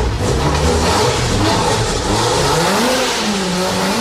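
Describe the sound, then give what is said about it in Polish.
A car engine revs hard in a loud, continuous roar whose pitch wavers up and down as the throttle is worked, with no talking over it. “Podciągnijmy gaz jeszcze.”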